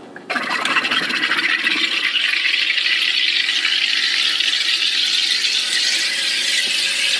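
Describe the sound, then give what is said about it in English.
Steady buzzing hiss from a soda maker as it carbonates water while its button is held down. It starts abruptly just after the opening and runs continuously at an even, fairly loud level to the end. “there's kind of an oval-shaped button that you press down on and you hold that will carbonate the water. And when you hear a buzzing sound like this,”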